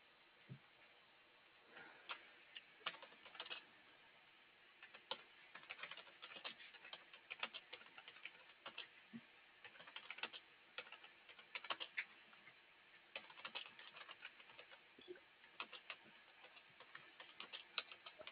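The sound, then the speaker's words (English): Typing on a computer keyboard: quiet, irregular bursts of light key clicks with short pauses, continuing throughout without talk. “Oh my goodness, I can't type.”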